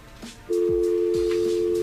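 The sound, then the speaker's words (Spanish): A telephone line tone as a call is hung up and the number redialed: a steady, mid-pitched electronic tone starts abruptly and holds unbroken to the end, with a few faint low sweeps underneath. “¿Ya colgó, va? Sí, ya colgó, ahí se está marcando de nuevo.”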